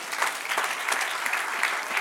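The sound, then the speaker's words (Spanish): Church audience in a Spanish-language service bursting into applause to honor God. Quick, dense clapping with many overlapping hands holds an even level through a short two-second stretch. “Denle un aplauso al que reina.”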